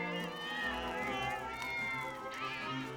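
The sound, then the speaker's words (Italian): Cats meow repeatedly as they trail after a girl, their mewing blended into a dense mix with voices talking over them. “non puoi portare con te dei gatti! Mi vengono dietro di testa loro!”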